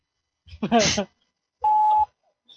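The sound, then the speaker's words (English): A voicemail beep signalling the start of message recording: one steady mid-pitched electronic tone lasting about half a second, following a short spoken phrase in a recorded voice. “Tone, please record your message.”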